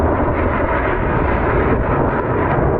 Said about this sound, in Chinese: 没想到三台大推力发动机开加力时候的那个声音，比刚才歼20低空通场的时候还要震撼人心。